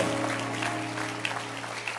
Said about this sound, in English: So let's clap our hands for Good Friday.